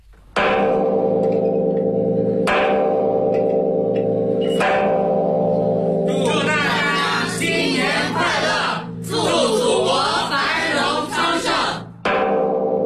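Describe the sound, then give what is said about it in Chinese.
A large temple bell rings in the bell tower of a Confucius temple in the early hours of Lunar New Year's Day. Several heavy strikes leave a long, low humming resonance, and loud crowd noise later swells over the ringing. “孔子故里山东曲阜孔庙阙里街上，钟楼里的钟声再一次响起。”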